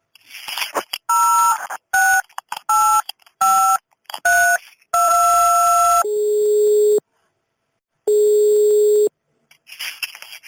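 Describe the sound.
Telephone dialing tones as a call is placed to connect a third party: a few short electronic beeps, then longer steady tones separated by a pause, with some faint noise at the start and end.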